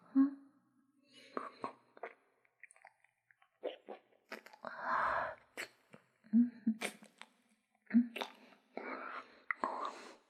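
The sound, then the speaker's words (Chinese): Wet mouth sounds of someone sucking a lollipop: many small slurps, clicks and smacks come in uneven bursts, mixed with soft whispery breaths and a few sharper pops, close and intimate. “我嘴里含着棒棒糖的声音”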